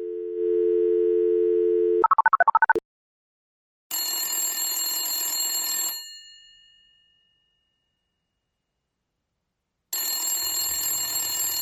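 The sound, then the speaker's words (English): A telephone plays a steady dial tone, then a quick run of dialing tones. Two loud, buzzy ringback bursts follow, separated by a long silence. “Let me just dial him up and give him a call.”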